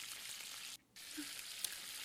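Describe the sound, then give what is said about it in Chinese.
Faint, steady sizzling of a fish head frying in a pan, its skin already torn and not yet properly browned. The hiss stops briefly in the middle, then resumes, with a small crackle near the end. “你看一下，你这个鱼头你都没有煎好，都已经破皮了，等会儿怎么能入味啊？”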